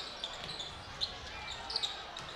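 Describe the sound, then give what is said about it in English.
Basketball dribbled during a professional game, a few quick, soft bounces over a steady wash of background noise. “Lakers with the ball. Jared Schroede dribbling right to left across the radio against Aaron Sines.”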